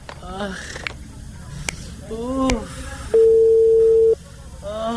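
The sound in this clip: A telephone ringing tone as a call is placed to a vaccination official: a single steady, mid-pitched tone lasting about one second, with people talking before and after it.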